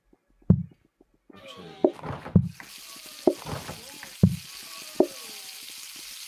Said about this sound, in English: might as well throw a steak on. Rare, and then medium.